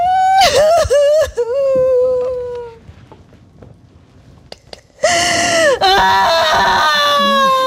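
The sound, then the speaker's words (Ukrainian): A cat cries from inside a pet carrier, giving loud, drawn-out wailing meows that bend up and down in pitch. The cries break off into a quieter stretch with faint rustling, then burst back in strongly. “Маруся втікає до переноски, зачиняється і починає плакати ще дужче.”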